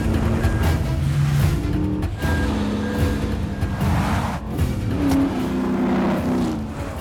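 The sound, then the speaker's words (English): A Jeep engine roars and revs hard as it is rallied at speed along a muddy dirt track during a chase, loud and continuous with its pitch rising and falling as the driver works the throttle. “Grimly, he rallies the Jeep through the muddy sight, narrowly missing a massive earth mover.”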